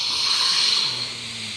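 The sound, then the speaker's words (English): A long, slow breath out through the mouth, heard as a soft, steady airy hiss that holds for about a second and then fades away. “do that breath with the inhale through your nose and an exhale through your mouth longer than the inhale.”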